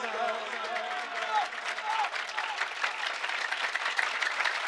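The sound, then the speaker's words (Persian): A crowd claps continuously and densely at a religious celebration of Imam Ali's birth night, with a voice faintly heard over the clapping early on. “بزن اینقدر کف بزن که این شب میلاد علی بس که همه کف زدن، دست ها سرخ شده یا که حنا”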